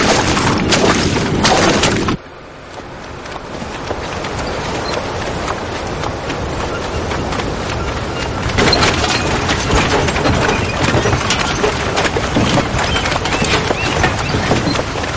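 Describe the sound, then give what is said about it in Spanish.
Hooves clop steadily as a carriage drawn by two mules moves along the shore, with a continuous rolling, rushing noise throughout. A loud burst opens the sound, it drops sharply, then the clopping and noise build back up and hold steady. “un carruaje tirado por dos mulas avanza por la orilla”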